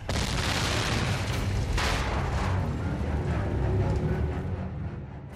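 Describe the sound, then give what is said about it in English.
Explosion of a huge Martian airship in a science-fiction radio drama, a loud, sustained, deep roaring rumble laced with crackling bursts that eases off slightly at the end. “Red Martians were falling from the side of the huge ship, and then it exploded again.”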